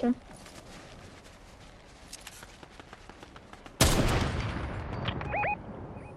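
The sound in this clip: Video game gunfire: a steady patter of faint rapid shots, then one sudden loud blast with a sustained roar that fades out. A couple of short tonal blips sound near the end.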